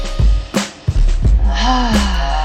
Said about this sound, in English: Take a deep breath. Let's take another one.